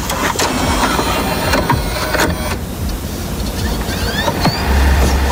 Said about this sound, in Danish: Hvis du ligesom mig har spillet PlayStation i mange år, så kan du nok godt genkende, at det her, det er altså, når man lige smider disken ind, og man kan høre, den begynder at spinne rundt.